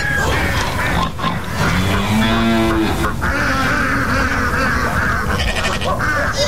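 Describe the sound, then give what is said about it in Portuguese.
Farm animals calling for food in the morning, with loud, overlapping bleats and grunts and a few drawn-out, tonal cries standing out among the constant noisy calling. “Os animais estão pedindo já comida, tem que se levantar, tomar aquele cafezinho gostoso, né? E a bicharada já tá lá, né? Fazendo a festa, né?”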